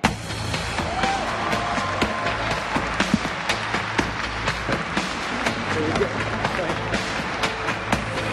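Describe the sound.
A large audience applauds as a Sony PlayStation executive is welcomed on stage at an E3 2014 press conference. Dense, steady clapping carries sharper claps scattered through it, with voices underneath.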